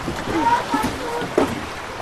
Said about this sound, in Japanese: 揚島観光海中投資船にじゃあ行きます。 お、揺れる。泡が、